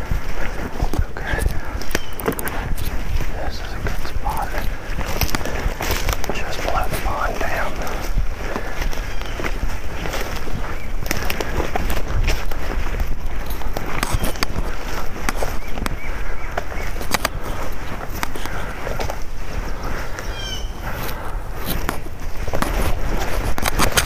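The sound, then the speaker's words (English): Footsteps of a hunter moving through the woods to set up a hunting spot: many steady, crunching and rustling steps sound throughout, dense and continuous with no pauses. “of the audio of me moving through the woods to set up spot number 3 of this hunt. I'm just going to play you the clip”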